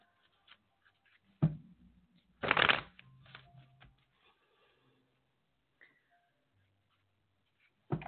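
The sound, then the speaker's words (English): Cards shuffled for a card reading: a short riffle, then a longer, louder burst of fluttering card noise, followed by a few faint taps and soft shuffles, with no talk. “Let me pull the cards for you and let's see.”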